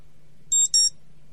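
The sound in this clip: Two short, high-pitched electronic beeps from a timer alarm sound in quick succession, each a bright warbling tone, over a faint low hum and otherwise silence.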